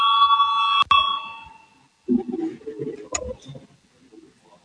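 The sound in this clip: A parliament voting bell gives a steady electronic tone for under a second, cut off by a sharp click. Low talk follows after a short pause.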